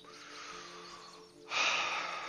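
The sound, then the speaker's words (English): A woman takes a deep breath: a long, soft, airy intake, then a louder, rushing exhale that holds to the end. “takes a deep breath and gathers herself for a second”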